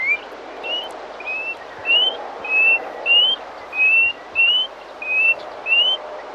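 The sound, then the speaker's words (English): Painted honeyeater calling: a series of short, high, rising whistled notes repeated at a steady pace, clear and alone with no other sounds over a light background hiss. “That is, of course, I say of course, but I had no idea, that it's the call of the painted honey eater.”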